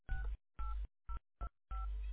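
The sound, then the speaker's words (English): Telephone keypad touch tones entering a five-digit zip code into an automated phone menu: five separate beeps of varying length, with the last one held longest. “Using your phone's keypad, please enter your 5-digit zip code.”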